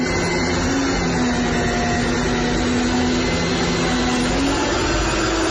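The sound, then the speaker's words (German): An heirloom East German DDR RG28 Multimixer kitchen mixer, Multiboy version, runs with a steady, loud motor whir and low hum that holds constant throughout, with no pauses or changes in speed. “Erkennen Sie, ne? Das ist ein Erbstück. Ist original aufgenommen von mir. Ein geniales DDR-Gerät, das immer noch hält. Der RG28, der Multimixer.”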